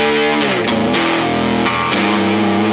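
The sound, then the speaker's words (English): Electric guitar played through a fuzz pedal turned all the way up, giving a thick, heavily distorted stoner rock tone with loud sustained notes and a few chord changes. “And the fuzz can go, you know, wherever you need it to go. So that's like turned as far down as a fuzz will go. Yep. Let's turn it all the way up.”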